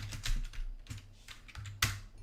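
Faint clatter of typing on a computer keyboard while entering a search, a few quick, irregular key taps with one sharper stroke near the end.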